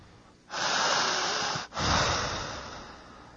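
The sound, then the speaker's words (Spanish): A person breathing in deeply: a long, loud, airy draw of breath, a brief break, then a second long breath that slowly trails off. No one talks. “Siga respirando jale el aire.”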